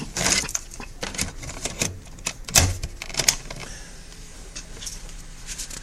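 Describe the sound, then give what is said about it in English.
A cassette tape is turned over in a quick run of irregular plastic clicks and rattles, busiest in the first half, then tapering to faint handling noise. “Let me just turn over this tape.”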